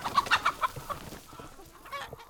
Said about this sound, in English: He has 300 egg-laying hens that he rotates through the fields.